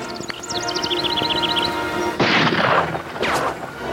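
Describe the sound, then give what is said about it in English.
Rifle shots fired from across a canyon gorge: two loud, sharp bangs about a second apart, each trailing off in a rough decay. “Shot come from Cross Canyon. Yes, but I can't see anyone. They're apparently hidden among those boulders across the gorge, using rifles.”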